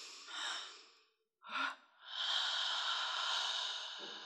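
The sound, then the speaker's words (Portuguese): Deep human breaths taken while following a calming instruction to breathe deeply and raise the arms: a breathy draw, a short sharp intake, then a long, steady, airy breath that holds for about two seconds, with no talking. “Respira fundo, levante os braços.”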